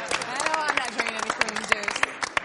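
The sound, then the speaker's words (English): A small group gives a brief round of applause. The clapping is uneven and quick, mixed with voices talking through it. “Give him a round of applause, guys.”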